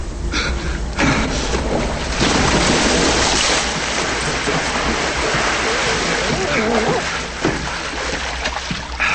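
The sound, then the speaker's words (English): A person jumps into water in a tunnel with a loud splash, followed by continuous sloshing and churning as they swim, with steady noisy rushing throughout. “jumps into the water”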